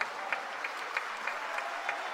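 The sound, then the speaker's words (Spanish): Church audience applauding the Lord, a steady patter of many hands at moderate loudness with a few sharper, accented claps standing out at regular intervals. “Alguien que le dé aplausos al Señor por eso.”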